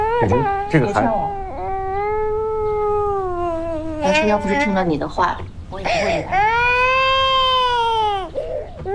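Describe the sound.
An infant wails in repeated high-pitched bursts, with long drawn-out cries broken by short sobbing catches. The crying is loud and carries on through the whole stretch.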